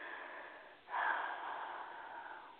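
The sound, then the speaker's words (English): A single deep breath is drawn in sharply and then eases into a long, soft, airy rush that trails off slowly, heard alone. “Take a deep breath.”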